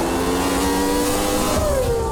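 A Formula 1 race car accelerates in the rain: a loud, steady engine roar with a high tonal whine that jumps upward near the end and then glides back down.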